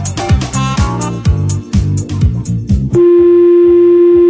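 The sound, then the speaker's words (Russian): A steady electronic tone on a telephone line sounds alone for about a second and a half as a call is placed. It follows a short burst of loud, rhythmic electronic music. “Давайте с Колей попробуем прямо сейчас связаться и попробовать как-то успокоиться.”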